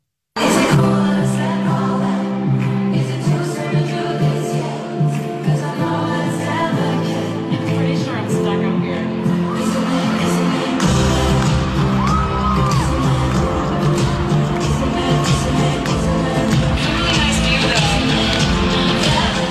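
Concert crowd at an evening show in Philadelphia reacting as the performer is stuck midair in a gondola-like stage prop: loud, sustained crowd noise full of whoops, yells and cheers that keeps going throughout with no break.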